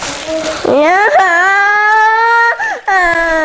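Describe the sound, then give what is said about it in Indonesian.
A child whimpers and cries in a few drawn-out, tonal wails, the longest held steady before breaking off, then rising again into another loud, strained cry. “jangan nangis ya”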